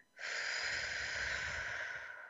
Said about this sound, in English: take a deep breath in through the nose, out through the mouth